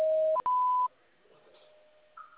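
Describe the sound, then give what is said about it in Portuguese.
Voicemail beep tone from a phone line: a brief lower tone steps up to a higher, clean beep lasting under half a second, then fades into faint line noise. “Sua chamada está sendo encaminhada para a caixa de mensagens e estará sujeita a cobranças após o sinal.”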